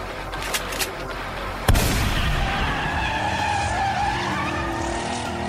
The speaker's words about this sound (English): It's the driverless car, Jackie. There ain't nobody driving it.